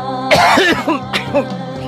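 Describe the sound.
Coughing in a few harsh, rasping bursts with throaty voiced tails, loud and alone with no talk.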